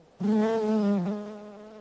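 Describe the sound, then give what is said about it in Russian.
A housefly buzzes in a steady, bright drone that starts abruptly, wavers slightly in pitch near the middle, and grows a little softer toward the end. “И муха, весело жужжа, улетела.”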